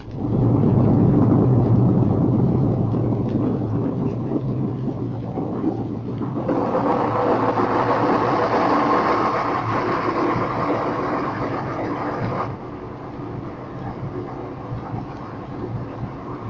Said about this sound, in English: Now, trim pumps. Near the end of the example, you will hear the sub bleeding down a ballast tank.